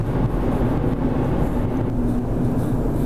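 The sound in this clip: A car driving on the road near Sacramento, a steady low rumble with a constant engine hum that holds unchanged throughout, with no voices.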